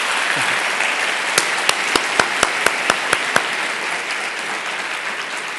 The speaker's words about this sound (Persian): به افتخار خانمای دست بزنید